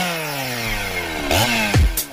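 Chainsaws revving, giving a buzzing engine tone whose pitch shifts throughout, with two louder, rougher bursts near the end and no voices.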